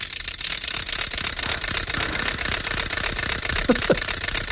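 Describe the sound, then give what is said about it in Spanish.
A wooden ratchet rattle, or matraca, is spun with a continuous fast clatter of clicks at steady strength, and two brief louder accents come near the end. “No, es una matraca, yo creo. Una matraca, pues muy bien, es una matraca.”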